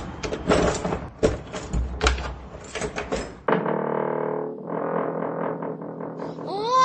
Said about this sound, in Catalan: he trobat un bagul. Obrim-lo a veure què hi ha. No puc, està tancat en clau. Aquí a la paret n'hi ha una de penjada. Provem a veure si ho és.